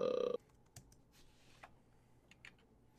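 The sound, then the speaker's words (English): A few faint, scattered clicks from a computer keyboard follow a brief loud tone at the very start. “It's a fucking keyboard, man. I need a new keyboard.”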